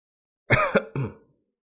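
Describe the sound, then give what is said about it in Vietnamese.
A person coughs up blood in a few short, harsh, voiced bursts in quick succession, fairly loud and alone, with no talk. “Diệp Phàm ho ra một búng máu, nhẹ nhàng dùng một cái chiếc khăn trắng lau miệng”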